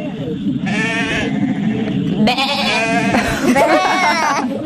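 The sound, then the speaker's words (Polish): Adult rams bleat in a few wavering, nasal cries that overlap and vary between higher and lower pitches, over a rough, noisy background. “Ale zapytajmy jeszcze dorosłe samce owcy, czyli Barany!”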